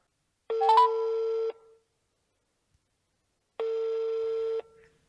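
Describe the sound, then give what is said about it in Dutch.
A telephone call is being placed. A few quick dialing beeps sit at the start of a long, steady ringing tone. After a silent pause, a second identical tone follows. “We bellen haar.”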